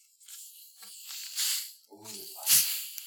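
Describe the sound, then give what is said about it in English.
A can of Faygo soda is cracked open and fizzes, giving a few hissing bursts of escaping gas, the strongest one near the end. “But it's that time, so crack open your Faygos.”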